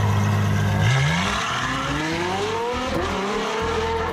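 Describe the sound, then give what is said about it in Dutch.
A Ferrari sports car engine revs loudly, its pitch climbing steadily, dipping briefly, then rising again in a smooth, sustained howl with no voices. “Een Ferrari.”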